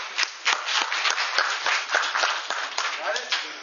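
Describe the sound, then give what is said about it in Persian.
A group claps for a participant who has just been called up, a lively round of hand claps lasting nearly four seconds, mixed with voices talking over it. “یه دست براشو بزنی.”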